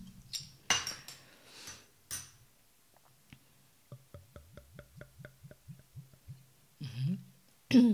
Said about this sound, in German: Dann würde ich sagen, ich mache die Flasche mal auf.